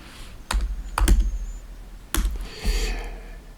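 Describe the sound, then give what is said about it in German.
Computer keyboard typing while someone opens a website: a few short bursts of crisp key clicks, fairly loud, separated by brief pauses, with no voices. “Ich gehe jetzt mal auf die Website von RTL.”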